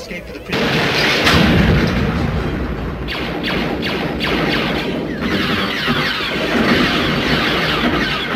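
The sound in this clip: Gunshots crack through a film's dense, noisy action soundtrack, with a cluster of sharp shots in the middle over a constant loud roar.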